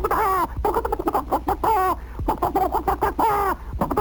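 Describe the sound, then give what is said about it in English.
A voice imitates a flock of turkeys gobbling: rapid warbling, trilling calls in repeated loud bursts with short breaks between them. “you ever hear a turkey? They go, they really do make that sound.”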